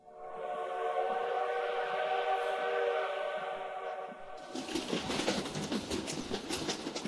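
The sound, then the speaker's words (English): A train's horn sounds in one long sustained tone for about four seconds, then gives way to the loud rumbling roar and rapid clatter of the train running along the tracks as it approaches. “The train approaches, roaring up alongside the tracks.”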